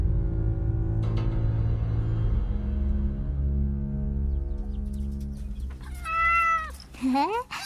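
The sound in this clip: A cat meows twice in quick succession, high and wavering, near the end, following a long stretch of steady low droning background.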